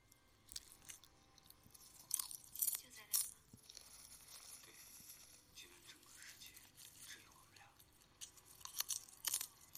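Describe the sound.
Someone bites into and chews a snack with quiet, irregular crunches in a few small clusters, while soft speech surrounds the chewing.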